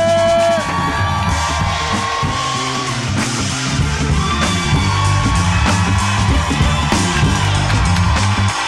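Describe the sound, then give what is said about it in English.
A crowd cheering, yelling and whooping at a live show at Resorts World in Las Vegas, as a loud, sustained roar with scattered shouts that holds throughout. “Make some noise right now.”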